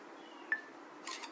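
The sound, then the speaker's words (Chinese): A smartphone camera takes a photo with a faint shutter sound: one sharp tick followed by a brief soft burst, against quiet background noise. “点一下这个，点一下人的脸就拍了。”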